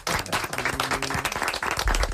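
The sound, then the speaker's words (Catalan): Audience applause for studio guests: a dense, steady patter of many hands clapping fills the whole stretch at an even, lively loudness. “Un aplaudiment per ells.”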